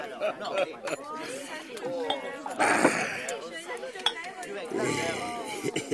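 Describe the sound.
Bottle and glasses clink at a drinking table, with scattered sharp chinks and cutlery-like rattles alongside murmured voices and chatter.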